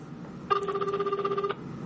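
A single telephone ringback burst sounds while a call is being placed. It is a rapidly pulsing, warbling tone lasting about one second, rising clearly above a low background hiss and then cutting off.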